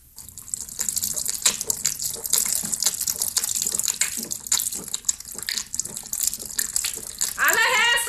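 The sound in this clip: Water is poured from a clay water pot, a continuous splashing, gurgling stream that runs steadily throughout.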